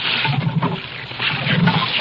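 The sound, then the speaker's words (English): Water rushes and splashes from a hand pump as its handle is worked, a steady, fairly loud gushing wash with a low rumble beneath it and no clear separate strokes. “Now he's pumping the pump handle, which will supply the power for this great space vehicle.”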